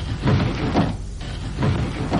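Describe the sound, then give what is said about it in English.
Window blinds being opened, a rough, rattling rustle that swells and fades in a few surges, with no talk. “I'll open some more blinds to ensure our being pulled in its direction.”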